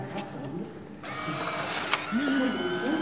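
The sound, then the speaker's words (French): Mechanical whir of an instant film printer exposing an iPad image onto Polaroid film and ejecting the photo. A quiet moment gives way to a steady motor hum with a brief click partway through. “Du coup, ça va se transmettre sur le film Pola et là, il va éjecter la photo.”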